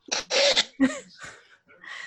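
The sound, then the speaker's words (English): A person sneezing: a few sharp, breathy bursts in quick succession, loud at first and then trailing off into softer huffs. “I was actually sneezing.”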